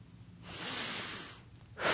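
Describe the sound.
A deep breath is drawn in through the nose: a long, airy, hissing inhale lasting about a second, followed by the start of another breath.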